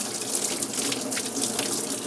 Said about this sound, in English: And rinse, dry it off.